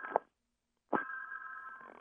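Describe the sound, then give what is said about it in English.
Another telephone rings faintly in the background: a brief tone, then a pause, then a longer steady ring. “The Sputnik moment, sorry about that ringing in the background. It's another phone.”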